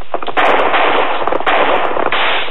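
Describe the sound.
Gunshots in a gunfight, several sharp, loud cracks with brief noisy tails over a constant hiss, in a muffled, dated-sounding recording with no talk.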